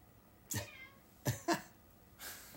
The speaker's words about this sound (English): My cat's being obnoxious.